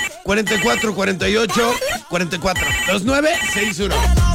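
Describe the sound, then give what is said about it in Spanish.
A telephone ringing in the booth, its tones mixed with a prominent voice throughout. “teléfono en cabina”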